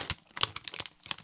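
A crinkly plastic snack package is opened with a quiet run of crackling, rustling bursts and a few sharper crinkles.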